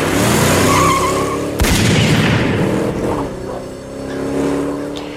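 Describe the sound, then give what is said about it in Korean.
Getaway car fleeing a bank robbery under gunfire in a film scene: loud engine roar and skidding tires throughout, broken by one sharp gunshot-like bang, with the noise then dipping and swelling again. “급히 차에 오른 형제는 총격을 피해 도주합니다.”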